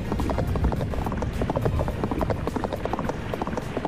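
Horse hooves clip-clopping during a ride, a rapid, steady run of many hoofbeats over a continuous rumbling background.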